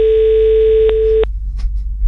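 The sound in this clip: A telephone ringback tone sounds while someone calls a person back: one steady, even tone holds for just over a second, then cuts off. Low background noise continues afterward.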